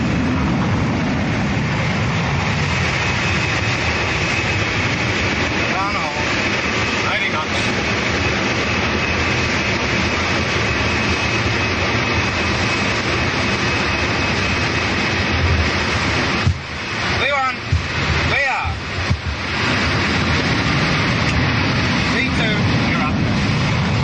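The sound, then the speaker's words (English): A steady, loud roar from an airliner's jet engines as it accelerates down the middle of the runway for takeoff after tower clearance. The dense noise holds nearly unchanged throughout. “the sleek airliner lunges forward and quickly gathers speed straight down the middle of the runway.”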